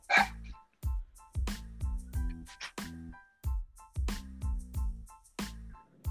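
A dog barks at its owner in a long run of sharp, loud barks, fairly evenly spaced and repeated many times over several seconds, with no talking over them.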